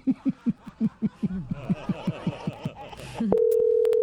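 A telephone call is placed after a run of rhythmic, snickering laughter. Near the end a steady electronic phone-line tone cuts in and holds, loud and unbroken.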